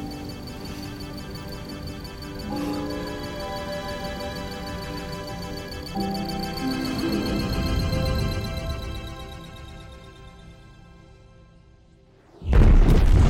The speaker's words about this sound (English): The exploding monitor begins to fall towards Nyx